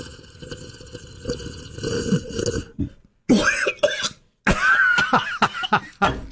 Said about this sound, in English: You're spitting. Excuse me. All over the place. Can't you drink your coffee? Oh, that was hotter than I thought it was going to be.